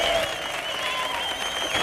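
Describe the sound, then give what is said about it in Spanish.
A studio audience applauds and cheers loudly in a continuous, dense burst of clapping with raised voices, holding strong throughout. “Hoy tenemos un público de 5 Jotas que suena así de fuerte.”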